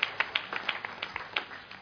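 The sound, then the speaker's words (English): Faint, scattered claps from an audience giving a clap offering during a church service, irregular sharp hits spread across the moment with no voices over them. “Give the Lord a clap offering, somebody.”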